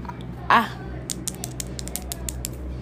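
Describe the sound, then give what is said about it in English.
Fingernails click in a rapid, irregular series of light, sharp taps. A brief vocal sound comes just before the tapping. “That's the sound of my nails clicking.”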